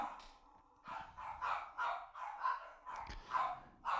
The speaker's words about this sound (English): Oh, dogs are barking.